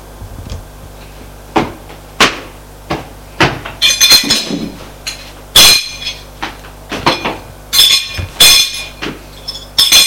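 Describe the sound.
Dishes clink and clatter as a table is set for dinner. Many sharp, bright knocks and rattles come in irregular bursts, some ringing louder than others, with no talk.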